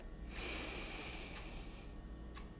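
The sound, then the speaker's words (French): A slow inhalation in a guided breathing exercise, a single faint airy hiss that lasts just over a second before fading. No voices are heard. “Donc, on le fait ensemble. On inspire pour 4.”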